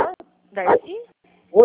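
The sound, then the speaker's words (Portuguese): A dog barks and lets out a short whining yip between a person's brief greetings on a phone call. “Espera aí, um momentinho, só tem um cachorro latindo aqui.”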